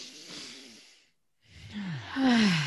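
A big deep breath: an airy inhale, a brief silent pause, then a louder exhale that carries a voiced, sighing tone sliding downward in pitch.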